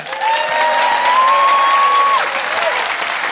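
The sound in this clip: Loud applause welcomes a comedian onto the stage: a dense, continuous wash of clapping from the audience that holds steady from start to finish.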